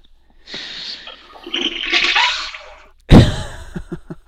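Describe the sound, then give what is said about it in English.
A toilet flushing: a long hiss of rushing water, then a sudden louder gurgling surge followed by a few short pulses as it drains. “Well, you heard the Mandel toilet flush. Yeah, you could hear it there.”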